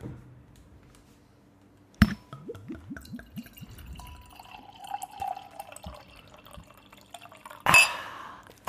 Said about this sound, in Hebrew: זה בקבוק שלי של יין